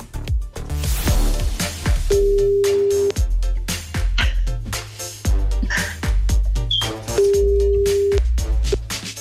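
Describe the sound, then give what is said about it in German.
Ringback tones from an outgoing telephone call sound as two steady, even beeps, each about a second long and spaced well apart, over loud rhythmic music with a heavy thumping beat. “könnten jetzt auf der anderen Leitung die Samira anrufen”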